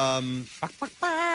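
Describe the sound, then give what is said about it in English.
Voices imitating chickens cluck out a pop song: a held, clucked note, two short clucks, then another sustained note. “and chickens? Is that the Muppets? Yeah, it was the Muppets.”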